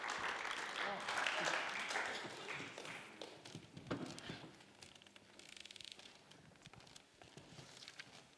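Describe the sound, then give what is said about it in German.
Audience applause welcomes a guest onto a stage: dense clapping for the first few seconds, then thinning into scattered taps and fading away while people begin talking. “darum geben wir ihm doch einen herzlichen Applaus auf unserer Bühne.”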